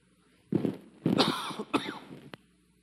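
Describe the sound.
Coughing from a tickle in the throat, a few rough, throaty bursts in close succession that end with a short final catch.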